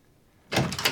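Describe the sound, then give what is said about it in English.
A door being opened breaks a near-silence about halfway through: a sudden burst of rattling, scraping noise that holds at a fairly steady level to the end. “Wearing a bathrobe, Jessie opens the door.”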